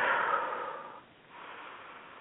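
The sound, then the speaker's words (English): Deep breathing during a guided relaxation exercise: two long, soft, airy breaths separated by a brief pause, faint and alone with no voices. “Let's just breathe deeply.”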